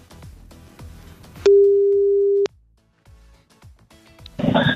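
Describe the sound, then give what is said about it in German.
A steady telephone tone sounds as an outgoing call is placed: one level, unbroken tone lasting about a second, loud and alone, between quieter stretches of low noise. “Der erste Call geht jetzt raus.”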